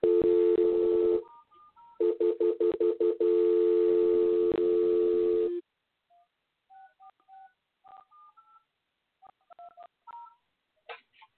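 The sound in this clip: Telephone keypad dialing tones while calling in over Skype: a steady tone, then a rapid run of short beeps, then scattered single beeps separated by silence.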